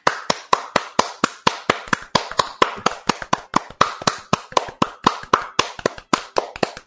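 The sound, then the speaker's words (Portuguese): Hands clap in a steady, even rhythm, many sharp claps of about four per second, lasting throughout with no voices. “Eu não sei porque o chat tá batendo palma, mas eu decidi bater palma também.”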